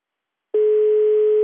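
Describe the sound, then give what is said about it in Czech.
Telephone tone while a call is placed: after half a second of silence, a loud, steady single-pitched tone starts abruptly and continues unbroken to the end. “A já mu volám.”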